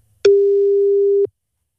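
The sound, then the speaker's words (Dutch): A telephone ringback tone sounds as an outgoing call is placed: one steady, mid-pitched beep of about one second, heard alone and cut off cleanly. “We gaan eventjes met haar bellen. Even kijken wat er precies allemaal aan de hand is. Hopen dat ze opneemt.”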